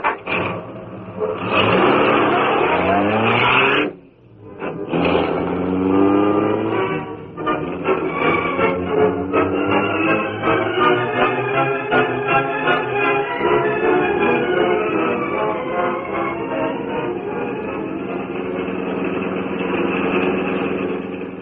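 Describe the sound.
Car engine revving and pulling away: the revs climb in the first seconds, then settle into a long, loud, steady drone of the motor running under way.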